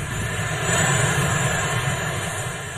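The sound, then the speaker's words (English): Presidential helicopter landing, heard as a steady, dense engine roar with a constant high whine above it, even in level throughout and with no voices. “That is Marine One landing.”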